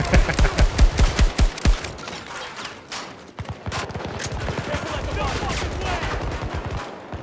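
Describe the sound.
Automatic gunfire in a shooting video game, as a full magazine is emptied into several enemies. It opens with a loud rapid burst of sharp shots, then becomes a denser, steadier rattle of fire.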